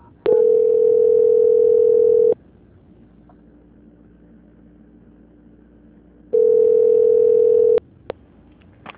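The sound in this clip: A telephone line sounds two long, steady mid-pitched tones during a call transfer, separated by a pause of faint low hum, followed by a short click.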